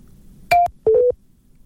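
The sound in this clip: Two electronic telephone tones on a radio call-in line: a short, higher beep and then a slightly longer, lower tone, clean and isolated with silence around them.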